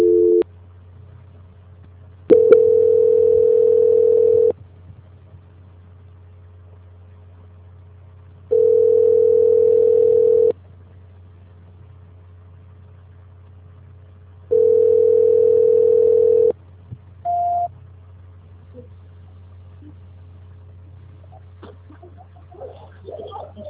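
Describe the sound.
Telephone line tone during a call transfer: three steady, mid-pitched tones of about two seconds each, separated by pauses of roughly four seconds, then a brief higher blip, all over a constant low hum.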